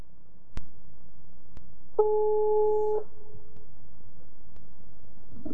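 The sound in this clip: A telephone ringback tone sounds while a call goes unanswered. One steady, clear tone lasts about a second, with quiet background hum before and after.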